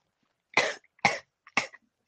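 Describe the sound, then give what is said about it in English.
Three sharp coughs from a person choking, loud and evenly spaced, each a short harsh burst separated by silence. “I'm choking right now.”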